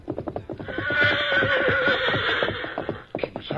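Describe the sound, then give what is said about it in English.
A horse whinnies loudly over a rapid, steady run of galloping hoofbeats. The drumming hooves continue throughout and the neigh rises out of the middle of it. “Here, Victor. Him run plenty hard. Yes, but look, he isn't wearing his saddle.”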